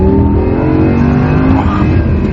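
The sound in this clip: A loud Audi R8 sports car engine revs hard in a low gear on an Alpine mountain road in the Dolomites, with a motor that reaches 8,500 rpm. It gives a strong, steady, layered harmonic roar throughout.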